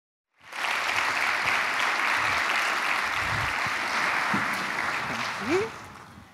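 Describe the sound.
Audience applause greets a speaker walking onto the stage at a women's international business event, a full, even roar of clapping that bursts in after a moment of quiet and carries on steadily, swelling briefly near the end.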